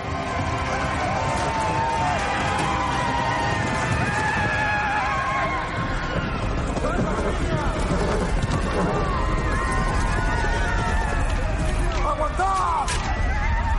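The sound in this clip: Dothraki cavalry horses galloping and neighing as they charge through flames in a battle, a dense, loud, continuous din of hooves and repeated whinnies throughout.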